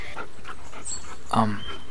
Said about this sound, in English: Oh my god, your dog has three heads. Whoa. No, sir, sit. Be nice.